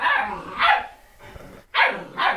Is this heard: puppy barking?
yes